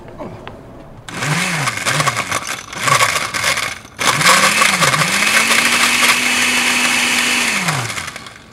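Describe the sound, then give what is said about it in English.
A blender whirs through a drink: two short pulsed bursts, then a long sustained run, the motor pitch climbing as each burst spins up. “All right, let's go blend. Let's go blend. I'll do the blending.”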